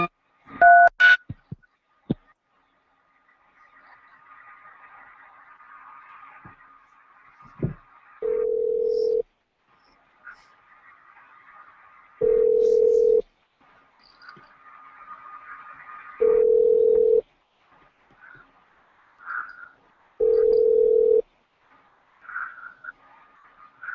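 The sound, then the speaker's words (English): Telephone keypad tones beep briefly as a call is placed to a hotel's phone line, then a steady ringback tone repeats four times at even intervals, with faint hiss and a few soft blips between the rings. “If you know the extension number of the party you wish to reach, please dial it now.”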